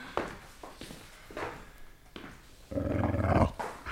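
A dog bedded down on straw gives a low, rough growl in a sustained burst near the end, after a few softer scattered sounds.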